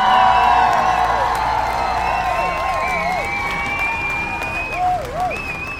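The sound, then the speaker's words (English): A crowd applauds and cheers to welcome the two hosts, with steady clapping, whoops and whistles rising and falling throughout. “put your hands together for the host of Justice for All, Josh Scarpello and Pierre Latour.”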